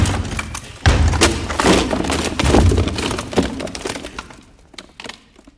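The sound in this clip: A door being kicked in during a stage play: a sudden heavy thump followed by a few more thuds and cracking, splintering noises that stay loud for a couple of seconds, then fade to a quieter rattle.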